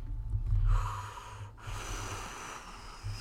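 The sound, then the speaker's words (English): Heavy breathing, a few deep, rough breaths with a snorting edge, faint and rising and falling unevenly. “I'm breathing so hard right now”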